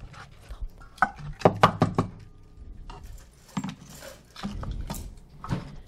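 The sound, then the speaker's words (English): Plastic forks being grabbed and handled while preparing challah dough: a quick cluster of light clattering knocks, followed by a few scattered taps and rustles, with no talk. “We're just going to grab some plastic forks for everyone to...”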